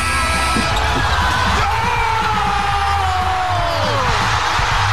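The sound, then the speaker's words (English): Basketball clattering off the rim several times before dropping through the net on the game-winning shot of a Game 7 playoff between the Toronto Raptors and Philadelphia, nearly buried under a loud, roaring crowd yelling and cheering. “You could hear the ball bouncing off of the rim four times there before it settled in the net.”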